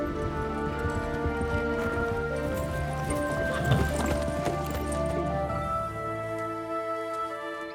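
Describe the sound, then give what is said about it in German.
A tired horse's hooves clip-clop at a steady walking pace as its rider, having dismounted after a full day's ride, leads it the last steps late at night. Sustained music plays underneath. “Den ganzen Tag ist er geritten. Er steigt vom Pferd und führt das müde Tier die letzten Schritte.”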